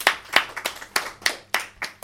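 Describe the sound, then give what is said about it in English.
Steady, evenly spaced hand claps at a home game as the prize winner is announced. The sharp claps come one at a time in a regular rhythm, with no talk over them. “Round of applause for”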